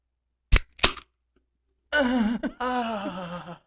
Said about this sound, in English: let me crack this cold one